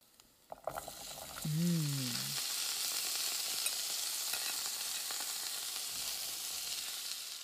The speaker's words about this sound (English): I'm going to also just kind of mix around my onions and garlic and add some salt and pepper and then add the black beans because those need to get started.